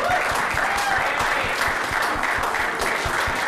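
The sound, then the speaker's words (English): Steady audience applause at a film competition event as a team is called to the stage, dense and continuous throughout without a break. “Yeah, make some noise.”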